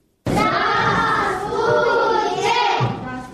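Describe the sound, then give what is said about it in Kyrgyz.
Young children's voices fill a first-grade classroom where Russian is being learned, with many children speaking together loudly and continuously after an abrupt start. “Ал окуткан 1-чи класста орус тилин үйрөнүүгө умтулуп жаткан балдарды көрүүгө болот.”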